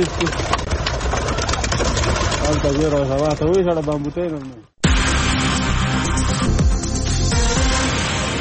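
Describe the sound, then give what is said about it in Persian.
Pigeons coo over the earth-coloured rooftops of Kabul, a warbling throaty coo surfacing briefly amid a constant mechanical hum that cuts out for a moment before resuming. “تا چه زمانی این کبوترها زینت بام‌های خاکی رنگ کابل خواهند بود”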